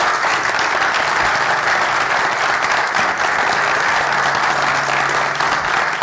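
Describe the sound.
Audience applause welcomes a speaker to the stage at a university talk: steady, dense clapping from a crowd that stays loud and even throughout, with no voices over it.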